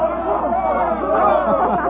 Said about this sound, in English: The cheer is for the bull.